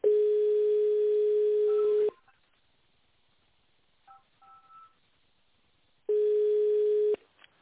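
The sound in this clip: A telephone ringing tone sounds while a call is transferred to an operator. A steady mid-pitched tone plays for about two seconds, then a long near-silent gap follows with faint clicks, and the same tone returns for about one second.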